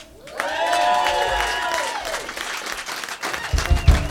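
A crowd applauds and cheers to welcome a rock band onstage, with a brief rush of clapping mixed with high whoops and shouts, then a few heavy low thumps near the end.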